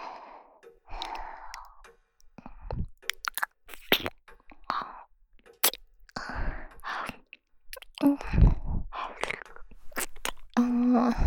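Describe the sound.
Someone chewing and biting food, heard as a string of crisp, crunchy bursts and wet mouth noises with breathy sighs between them, fairly loud and irregular.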